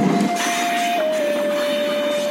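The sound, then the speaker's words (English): A train coming to a stop on the rails gives a loud, steady rushing rumble with a sustained squealing tone that steps slightly lower partway through. No voices are heard. “After what felt like hours, the train finally stopped.”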